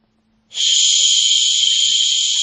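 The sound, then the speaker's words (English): Shushing sleep sound from a smart speaker, meant to lull a baby to sleep: a loud, steady, breathy hiss that starts abruptly after a brief silence and holds constant without a break. “A shush. The shush sound? The only thing that gets my baby to sleep.”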